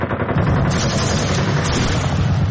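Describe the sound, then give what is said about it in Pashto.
Successive gunshots rattle in a dense, loud, unbroken barrage of overlapping shots, with a heavy low rumble underneath throughout. “پرله پسې ډزې سوې”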